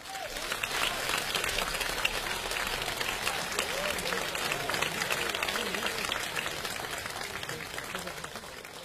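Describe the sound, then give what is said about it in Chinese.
Warm audience applause welcomes two famous crosstalk comedians onto the stage at a commemorative comedy performance, a continuous, even patter of many hands clapping that lasts for the full nine seconds. “接下来我们用热烈的掌声有请全国著名的相声表演艺术家李金斗、王文林。”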